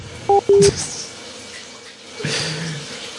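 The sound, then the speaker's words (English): Water runs from a tap as hands are washed at a sink. Two short electronic beeps come first, then a quiet pause, then a steady, fairly soft rush of water. “Wash my hands here.”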